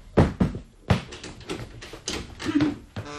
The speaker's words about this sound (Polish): Bo drzwi są zamknięte. Ojej, rzeczywiście, jakie to głupie. No, już otwieram.